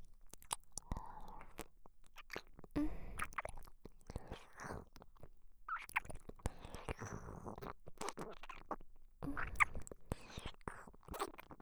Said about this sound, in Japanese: さっきあなたが出してくれたこの太ももから失礼して、いただきます。